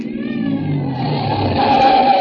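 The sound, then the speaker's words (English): A car drives on toward a bend in the road with a steady, droning engine that slowly grows louder, and a thin whine rises in the last second. “Keep driving till we hit that bend in the road.”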